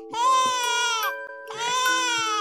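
A baby cries in two long, high, wailing bursts with a short catch of breath between them, loud and strained like a tantrum.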